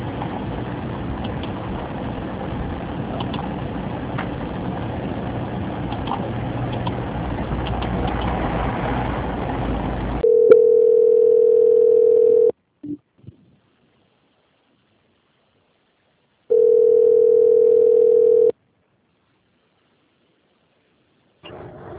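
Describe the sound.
Telephone line tones during a call transfer: a steady hiss gives way to two long, even, mid-pitched tones separated by silence, with a few soft clicks between them.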